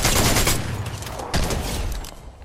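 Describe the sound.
Gunfire from a new mythic weapon in a video game: a dense, loud burst of rapid shots that keeps going and gradually eases off.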